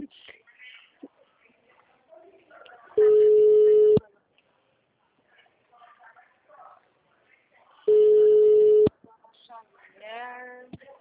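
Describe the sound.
Two steady telephone tones, each lasting about a second and spaced roughly four seconds apart, sound on a call that goes unanswered, with faint voices and small noises in the gaps.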